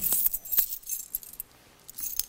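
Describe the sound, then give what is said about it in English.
Keys are set down as part of a quiet devotional practice: a few light metallic clicks and jingles, some sharper than others, faint and with no talk. “You say, I lay aside my keys.”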